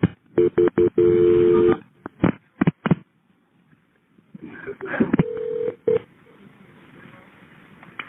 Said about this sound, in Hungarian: Rendben, hívom a kórházat.